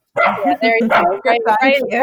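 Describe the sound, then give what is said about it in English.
A dog barks and yips in a quick run of several whiny, tonal barks, fairly loud and close together, while adapting to new restrictions on access to its owner. “right on cue. He'll probably, you know, he'll probably bark a little bit.”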